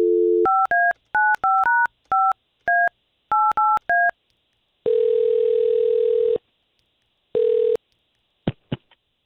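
Touch-tone keypad beeps dial a phone number in a quick, uneven string of short tones, followed by a long steady ringing tone on the line, a shorter second ring, and a few faint clicks.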